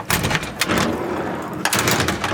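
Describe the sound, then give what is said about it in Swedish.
Heavy hatches on a Stridsfordon 90 combat vehicle are opened in a garage, giving a few bursts of metallic clanks and thuds with brief rattling between them. “Här sitter vi. 6 stycken soldater. Och ja, de här luckorna här går ju öppna.”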